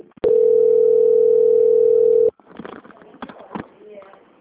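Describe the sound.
Telephone transfer tone during a customer-service call being passed to a quality-control line: one steady mid-pitched tone of about two seconds, then quieter, muffled, irregular sounds.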